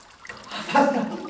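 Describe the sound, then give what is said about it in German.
Water rushes into a cellar through cracks, a short gush that swells into loud splashing partway through and stays strong until the end. “keine Explosion war, sondern Wasser. Wasser, das aus allen Ritzen in den Keller drang. Bald umspielte es meine Knöchel, dann die Knie.”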